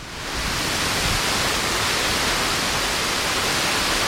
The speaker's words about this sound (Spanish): Y este es el sonido del río a su paso por Alcalá del Río.